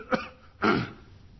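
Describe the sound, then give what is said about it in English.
A person whose voice is rough from sinus trouble clears their throat twice: first a brief rasp, then a longer and louder one, with quiet between. “I hope I don't irritate you too much clearing my throat.”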